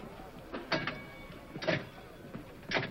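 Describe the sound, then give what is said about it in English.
Slot machine lever pulled in a casino, giving a few quiet mechanical whirring and clicking bursts over a low, steady background hum. “walks through the casino with the ladies over to the slot machine, pulls the lever,”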